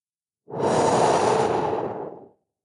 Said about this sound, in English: Breathe.